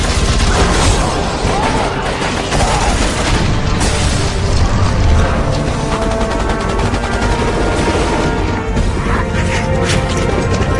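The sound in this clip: Turret gunfire and explosions in the Resident Evil video game, a loud, continuous barrage of rapid shots and heavy booms, with voices speaking over the din.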